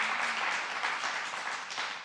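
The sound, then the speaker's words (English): Church audience clapping during a sermon: a steady, dense wash of many hands, fairly soft and even, holding without pause and with no voices on top. “And if we got life coming out of it, go ahead and clap.”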